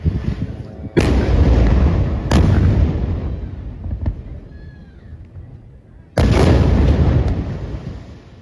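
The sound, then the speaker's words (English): High-explosive shells strike a building in a heavy shelling: three loud booming blasts, each trailing off in a long rumbling decay, with a smaller sharp crack between the second and third. “the third shelling, high explosive bombs were used that directly targeted the building.”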